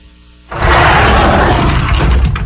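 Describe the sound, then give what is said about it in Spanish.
Sliding door rolling along its track: after half a second of near silence, a loud, steady rumbling rush starts abruptly and holds without a break for about two seconds, with no voices. “Es una puerta. Una puerta corrediza.”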